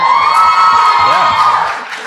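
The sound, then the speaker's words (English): A crowd at a Game of Thrones fan event cheers loudly, with high whoops and shouts over a dense roar that holds strong and then eases slightly toward the end. “Should we just go through characters everyone cheered for?”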